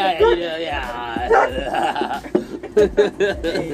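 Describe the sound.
A dog that wants to go outside whines and gives a few short yips and barks in high, wavering bursts, mixed in with a person talking to it.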